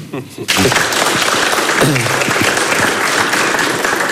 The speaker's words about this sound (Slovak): Nemusíte tlieskať, my sme v práci. Ale ďakujem.